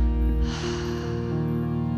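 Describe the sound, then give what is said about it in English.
A deep breath drawn in through the nose and let out through the mouth during a guided breathing exercise. It rises as a soft, airy rush over a steady, sustained musical drone and fades away beneath it. “The next breath, let it be a deep breath in through the nose and out through the mouth.”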